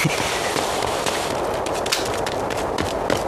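Gunshots crackle in a dense, continuous volley of rapid sharp pops that stay loud and unbroken throughout.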